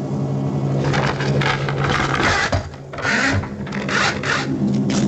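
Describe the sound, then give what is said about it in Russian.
Paper being torn, standing for books being ripped up and destroyed: many rough, rasping rips in quick, uneven bursts, with a brief dip midway before the tearing resumes. “Вы слышали звук разрываемой бумаги.”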